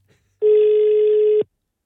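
A telephone call ringing out: one steady, level ringback tone lasts about a second and stops abruptly. No voices are heard alongside it.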